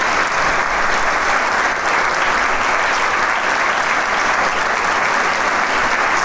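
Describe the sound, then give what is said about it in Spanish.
A concert audience applauds the musicians of an orchestra after a performance of a concerto for clarinet, viola and orchestra, producing loud, dense and continuous applause that holds at an even level throughout. “y el aplauso es la descripción más grande que puedo darle a usted y que el público le atribuye a la labor de estos grandes músicos.”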